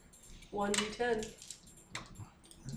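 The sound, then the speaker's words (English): Plastic dice clattering as a handful is grabbed from a pile during a tabletop role-playing game, brief rattling bursts mixed with a voice. “Sorry, I just need to grab more dice than I thought.”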